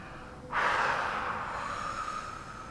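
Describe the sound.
Quick, forceful exhale through the mouth during a guided meditation breathing exercise: a single sudden breathy rush of air that starts abruptly and then slowly tapers off, heard alone against a quiet background.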